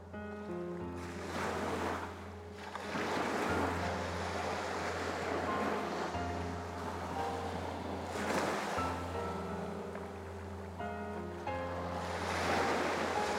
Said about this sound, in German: Nachdem ich den Motor abgeschaltet habe, verliert mein Boot schnell an Fahrt. Der Bug senkt sich ins Wasser und ich höre auf einmal das sanfte Plätschern der Wellen gegen den Rumpf.